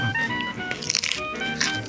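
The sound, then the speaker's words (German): Crisp crunching as a raw carrot is bitten and chewed, with a few sharp, crackly bursts over a quiet background. “Ich esse gerade die Möhre.”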